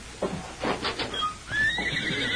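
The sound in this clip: A horse neighs in a Western drama scene: one loud, quavering whinny with shaky, harmonic bursts, then a higher, drawn-out trailing cry.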